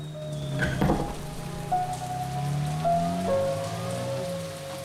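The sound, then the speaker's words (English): Heavy rain falls at night with a steady, dense hiss of drops throughout, at moderate loudness and with no voices. “It's dark and raining hard.”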